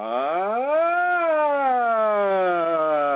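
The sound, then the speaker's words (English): A human voice tones in one long, sustained note that glides upward, then slowly slides back down, imitating a siren with a smooth, steady wail. “Toning specifically is using the sound and using voice to run sirens up and down, and those sirens are basically knocking off any sort of casual debris on our auric field and in our energy bodies.”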